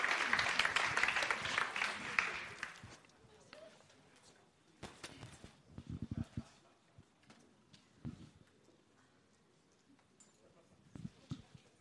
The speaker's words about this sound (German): Geben wir mal einen kräftigen Applaus.